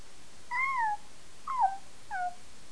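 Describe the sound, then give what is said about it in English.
A cat meows three times, each a short, clear, mid-pitched call, the first one the longest, with no talk around it. “Who is that? Is that a kitty cat?”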